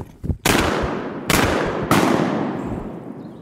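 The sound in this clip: Gunshots fire at ducks during a duck hunt. Three loud blasts come in quick succession, each leaving a long fading rumble, and a fainter pop sounds just before the first.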